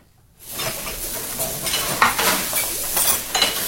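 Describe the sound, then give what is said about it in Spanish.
Food sizzles and fries in a pan while a utensil stirs and scrapes through it, with occasional light metallic clinks. The loud, steady sizzle starts abruptly after a short silence and carries on throughout, with no voices. “Estamos cocinando algo rico, algo delicioso, algo Nutrisabroso.”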